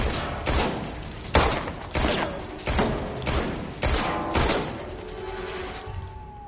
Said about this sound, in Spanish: sale y dispara hacia donde está el cazador